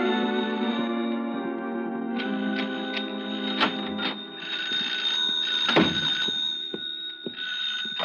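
A telephone rings on and on, a sustained bright ringing tone with a few light clicks over it, fairly quiet and with no voices.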